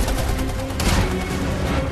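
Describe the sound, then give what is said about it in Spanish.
Rapid machine gun fire from agents parachuting toward an aircraft, heard as a dense, continuous stream of sharp bursts. There are no voices. “Los agentes saltan en paracaídas y abren fuego con sus ametralladoras.”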